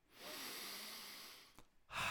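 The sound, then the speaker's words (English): One long, deep breath drawn in as a soft, airy hiss that lasts more than a second. After a brief pause the next breath begins, quiet and with no talk. “Now, let us center ourselves and take our deep breaths.”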